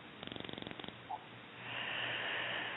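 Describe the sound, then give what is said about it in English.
A deep breath: a quick fluttering rattle of rapid pulses gives way to a brief click, then a long, steady, airy rush of breath that continues to the end, all fairly faint with no talking. “Oh, I'm taking a deep breath now.”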